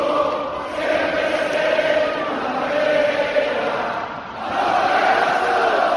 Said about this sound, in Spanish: Impresionante el sonido de la afición de Unicaja despidiendo a los campeones de Copa que han llegado hasta la semifinal de la Liga CB. Enhorabuena al Barça, que va a jugar la final con el Madrid. Pero este era el ambiente en el Martín Carpena.